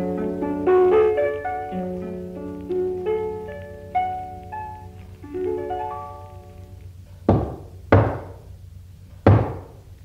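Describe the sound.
Three sharp knocks on a door arrive in a loose, uneven pattern near the end, after a melodic stretch of ringing plucked tones.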